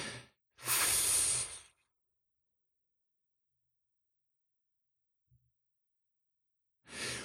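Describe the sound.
A slow, deep exhale with a light sigh, taken as part of a calm breathing exercise for stress relief. One soft, breathy rush lasts about a second and gives way to silence, then another breath begins at the end.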